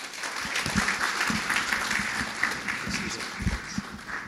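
A church audience applauds a guest pastor, with dense, steady clapping that carries through the whole stretch at an even level.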